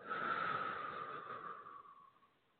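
A long, deep breath in a guided relaxation, heard alone as a soft, airy hiss that holds steady and then slowly fades away over a couple of seconds.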